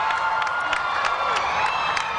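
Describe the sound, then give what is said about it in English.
A crowd cheers in downtown Philadelphia as the papal motorcade arrives, a steady roar of voices with repeated shrill whoops and shouts rising above it. “That's the sound of the crowd as the Pope's motorcade arrived.”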